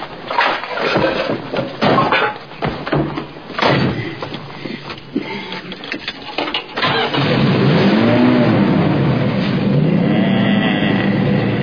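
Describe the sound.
A car engine starts and settles into a loud, steady running sound while warming up, with a brief rev that swells in pitch. It follows several seconds of scattered clunks and knocks.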